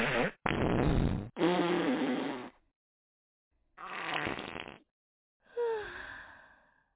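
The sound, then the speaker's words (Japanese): Five loud bursts of farting, some short and others long and drawn out, separated by brief silences, with a breathy, airy texture and no speech. “いい？出すからね。君に嗅がせるためにおならするんじゃないのよ。”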